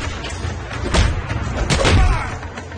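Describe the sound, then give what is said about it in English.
Heavy thuds and slams sound as a person is kicked against a cell door during a fight, a few dull impacts spread across a rumbling background. “Silva kicks Shen to his cell door and charges with a punch.”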